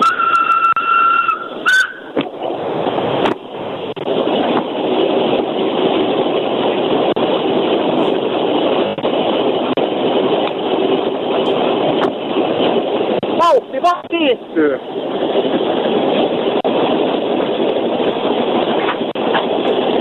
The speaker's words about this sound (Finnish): Ja etenee edelleen. Vuonna 2008 Ukko-Pekka veturi matkaa Lahdesta Helsinkiin.